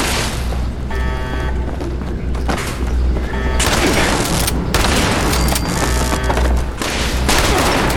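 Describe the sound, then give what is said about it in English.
Video game gunfire rattles in dense bursts of automatic shots mixed with heavy booming blasts. It is loud and nearly continuous, easing only briefly between volleys. “Oh, I almost shot Valdez. Okay, don't shoot the pretty lady. Pretty ladies don't like being shot.”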